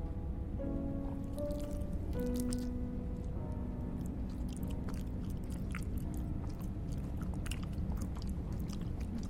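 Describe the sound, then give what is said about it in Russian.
Biting into and chewing a protein bar: repeated soft crunches and moist, squishy chewing sounds continue over a constant low background rumble, without any talking. “Бросает ей протеиновый батончик. Кусай. Она с отвращением откусывает и жует его.”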